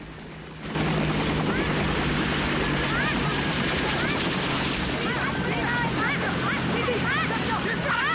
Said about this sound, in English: A Huey lowers down into the piazza by the wounded GI outside the school.